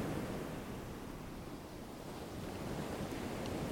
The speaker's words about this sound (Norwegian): Du hører nå lyden av bølgene som ruller inn